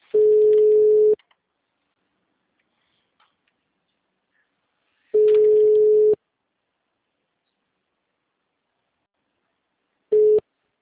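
Telephone ringback tone as a call connects: a steady, low beep lasting about a second, repeating after roughly four seconds of silence, with two full tones and the start of a third.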